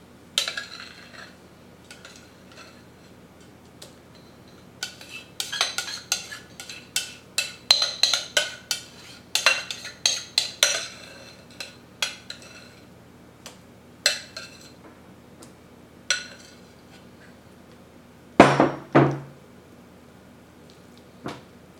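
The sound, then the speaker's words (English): A spatula spreads refried beans into an even layer across the bottom of a glass Pyrex bowl, making many light scrapes and clinks in irregular clusters, with a louder pair of scrapes near the end. “We begin with the refried beans. I use a spatula to help me make a nice even layer across the bottom of the bowl.”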